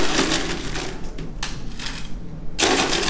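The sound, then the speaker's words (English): Ice is added to top a cranberry cocktail in a glass, giving a rattling, crunching clatter throughout. A louder burst of clinking comes near the end. “All right, we're gonna go ahead and just top with ice.”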